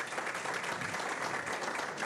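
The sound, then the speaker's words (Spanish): Audience applause for a speaker at an adult education gathering: dense, even clapping that continues without pause for the whole clip. “un aplauso a María, ¿vale? Que ha hablado bien bonito.”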